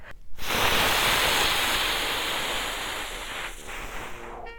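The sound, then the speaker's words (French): A wolf blows hard on a solid little house, neither bamboo nor plank, making one long, loud rushing whoosh of air that swells quickly and then slowly tapers off. “il souffla. La maisonnette ne trembla même pas.”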